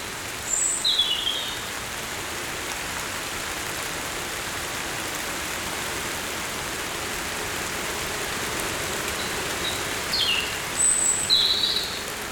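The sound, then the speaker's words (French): Fine rain falls with a soft, even hiss throughout. Faint bird chirps break through near the start and again near the end. “une fine pluie éclabousse vos oreilles.”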